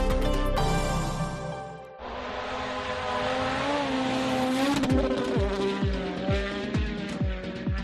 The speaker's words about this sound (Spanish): Este sonido de motor que escuchas es el que va a sonar este fin de semana en Oznayo, porque la localidad vuelve a llenarse estos días de coches